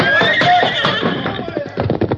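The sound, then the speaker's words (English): A horse neighs in a loud, high whinny that falls in pitch, followed by rhythmic hoof clatter and a busy, noisy scene toward the end. “Jump to your own horse, Tonto.”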